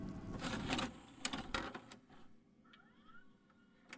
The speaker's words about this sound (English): And while I do so, why don't I pop in another tape for you? Off you go.